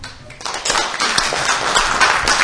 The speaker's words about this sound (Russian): Поэтому тоже заслуживает он бурных аплодисментов.